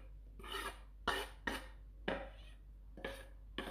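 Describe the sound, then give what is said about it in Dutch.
A minced meat filling with rice, onion, garlic, paprika powder and fresh parsley is mixed by hand for stuffing cabbage leaves, giving a series of moist, scraping, squelching strokes with short pauses between them. “En ik ga het mengsel eh, ja, nu goed mengen”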